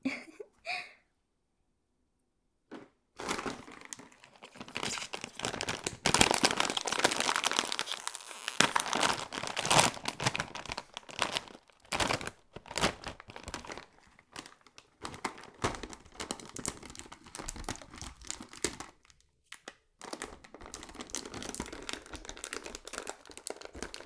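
Crinkling of a snack bag being opened: a busy, crackling plastic rustle that starts after a short quiet gap and runs almost continuously, loud and irregular, with a few brief pauses.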